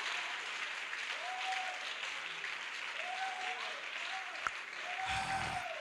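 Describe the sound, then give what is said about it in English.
A church audience claps for God during a service, a faint, steady, continuous patter of many hands that lasts throughout, with a voice sounding over it. “God to call you His son, His daughter, in this day, clap for God.”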